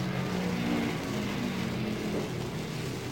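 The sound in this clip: A race car engine drones on the Indianapolis track during an extra lap after the finish, a faint, continuous roar that stays steady throughout with no voices.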